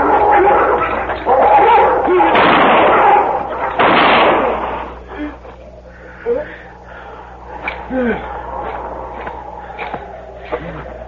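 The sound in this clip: Six-gun gunshots in a radio western drama: two heavy, booming blasts close together, followed by quieter voices and small knocks.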